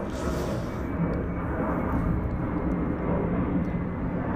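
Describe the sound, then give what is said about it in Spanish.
An airplane passing overhead makes a steady, broad roar. The low rumble stays at an even loudness from start to finish, with a faint hiss above it and no voices. “va a pasar un avión. Salúdala al avión.”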